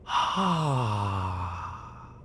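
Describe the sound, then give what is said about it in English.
A long, voiced sighing breath out during a slow breathing exercise. Its pitch glides steadily downward as it fades over about two seconds. “Let's slowly breathe in, then slowly breathe out.”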